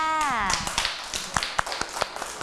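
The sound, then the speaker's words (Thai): Children clapping in applause for a classmate's group artwork in a classroom, a burst of quick, uneven claps with sharp transients following a brief descending tone at the start. “ชื่นชอบใช่ไหมคะสวยมากๆเลยค่ะปรบมือให้กับน้องมาลีนะ”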